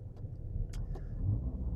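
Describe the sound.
Car driving on the road, a quiet, steady low engine and road rumble with a few faint clicks over it.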